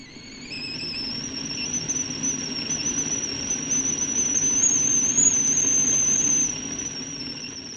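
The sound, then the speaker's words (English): Water boiling on a stove gives a steady rushing hiss of bubbling and steam, with a thin, high, whistling tone running above it throughout. The hiss swells slightly louder, then eases back near the end. “If you guessed boiling water on a stove, right again.”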